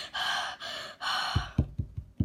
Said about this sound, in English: At the sound of heavy breathing and footsteps,